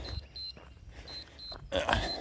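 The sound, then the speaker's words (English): A phone's notification pings repeat as several short, high, thin beeps spaced irregularly over a faint background hiss. “you're hearing some pinging happening on my phone, by the way, because I'm recording this with my phone.”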